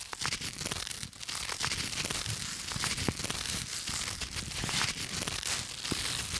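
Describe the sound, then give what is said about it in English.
A Tearaway Duvet is torn apart in a long, continuous fabric rip of many small crackling, crinkly bursts, heard alone for several seconds. “But with the Tearaway Duvet, my cold Martian nights are a thing of the past. I just tear”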